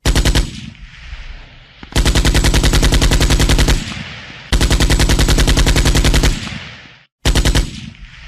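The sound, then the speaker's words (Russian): A Kord automatic rifle fires long, rapid bursts, a dense hammering rattle of many shots. Several sustained volleys are separated by short pauses, loud and harsh throughout with no voices. “Ствол корда не повело. Автомат просто посылал пулю за пулей точно в цель.”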